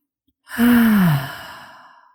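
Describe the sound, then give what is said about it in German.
A deep breath out during a guided breathing exercise comes as one long, loud sigh: voiced at first with a gently falling pitch, then trailing off into soft breathy air. “Und lass los, atme aus.”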